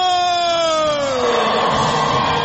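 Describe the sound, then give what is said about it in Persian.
Loud celebratory cheering and shouting from Iranian women's futsal players after winning the Asian title, with a sustained voiced yell that slides downward in pitch while crowd noise thickens around it. “این صدای هلهله و شادمانی بازیکنان فوتسال زن ایرانی است”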